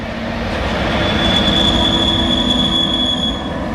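A train passes on the railway line at Sélestat with a loud, steady rolling rumble and a thin, high wheel squeal running through most of the pass. There is no talk.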